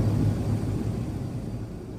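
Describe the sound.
Cabin noise at the back of an aircraft in flight: a continuous deep rumbling drone, heaviest in the low end and steady throughout, with no voices.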